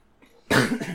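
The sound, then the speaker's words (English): A single harsh cough from a person recovering from fluid buildup in the lungs breaks out suddenly and loudly after near silence. “I mean, I still have it a bit, right? I'm coughing, yeah.”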